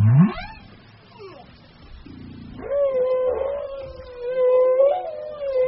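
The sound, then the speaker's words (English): Whale song from whales breeding off Gabon or Madagascar. A low rising whoop and a falling sweep lead into a rough buzzing pulse, then a long wavering moan rich in harmonics. “this meetup provides the whales with the opportunity to have vocal jam sessions where they trade melodies”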